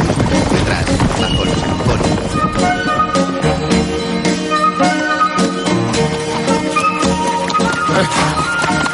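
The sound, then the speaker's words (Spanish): A horse galloping with its rider bouncing on a small saddle, in an 1891 period setting: rapid hoofbeats in a fast, steady rhythm, loud within a dense mix of other tones and sounds. “Todo un galope y se rebota en su pequeña montura.”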